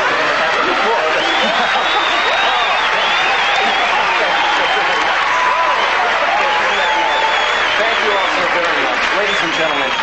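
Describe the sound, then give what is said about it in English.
A theatre crowd at a curtain call cheers and applauds loudly and without pause, a dense continuous roar of clapping with shouting voices mixed in. “And the crowd just goes insane.”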